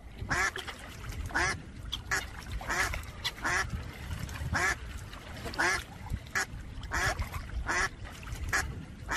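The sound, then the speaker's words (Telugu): Ducks quack repeatedly among large white and black swans, with many sharp, nasal calls in quick irregular bursts over a low, steady background of water and bird noise. “ఏమిటి, బాతులు తెల్లగా అందంగా ఉన్నాయి కదండి. అవును, ఈ బాతులు ఇంత పెద్దగా ఉన్నాయేంటండి, తెలుపు నలుపు రంగుల్లో ఉన్నాయి. అవి హంసలు, తెల్ల హంసలు నల్ల హంసలు.”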